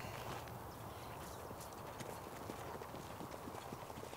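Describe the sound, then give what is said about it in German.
Hoofbeats of a racehorse trotting on a hard track, the horse moving as if in pain with a shortened trot. A rapid, steady run of many clopping hoof strikes continues throughout over a dense background. “Viehgut läuft, als hätte er Schmerzen. Wie kommen Sie darauf? Er schont sich auf der harten Bahn. Der Kopf kommt höher. Der Trab wird kürzer.”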